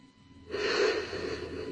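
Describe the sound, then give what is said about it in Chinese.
A person draws one deep, steady breath in through one nostril during a cranial nerve check. The breath starts suddenly after a brief near-silence and holds as a broad, airy rush to the end. “然后需要你跟着我呼吸。如果哪里感觉到不适，要告诉我哦。好，来，吸气，”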